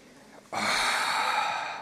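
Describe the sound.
People exhale during a standing stretch with arms raised and up on tiptoe. After a quiet start, one long, breathy rush of air begins abruptly and holds steady before tapering slightly.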